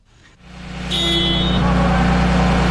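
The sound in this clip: A heavy vehicle engine starts during a heavy vehicle repair skills competition. The noise builds over the first second into a loud, steady low rumble that holds to the end.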